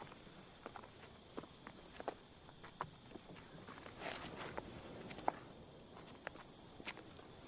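Footsteps of two people climbing a staircase hand in hand, faint and soft: a series of light, irregular taps over a quiet, steady background hiss.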